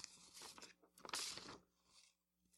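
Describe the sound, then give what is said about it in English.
Someone bites into a snack and crunches it, giving a burst of crisp, brittle cracks followed by a louder sustained crunch in the middle, then softer chewing noises trailing off. “Hey, are those snacks fresh? Let me have one. Mmm, tasty.”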